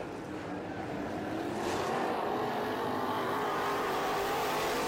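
Race cars roar through the last lap of a race in a dense, continuous engine drone that stays loud and level from start to finish.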